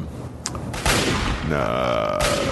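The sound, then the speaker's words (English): Laser rifle fire in a video game, heard as a few loud, sharp bursts that give way to a sustained, buzzing electronic tone over steady background noise. “I'm not sure what he's fighting. Something with a laser rifle.”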